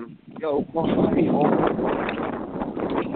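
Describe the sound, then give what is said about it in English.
Strong wind buffeting a microphone: a loud, steady, muffled rumble that continues throughout, with a voice briefly heard talking near the start. “It's super windy. Super windy.”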